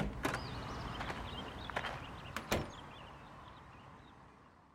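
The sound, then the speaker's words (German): Shop door being closed and locked: a few faint clicks and knocks, ending in a slightly firmer clunk, over a soft steady hiss. “Ein letztes Mal schaut er sich um und schließt den Laden wieder zu.”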